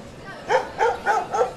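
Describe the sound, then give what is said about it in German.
A dog barks four times in an even rhythm, each bark short, sharp and mid-pitched, standing out clearly over a quiet background. “Kann der Köter jetzt mal still sein?”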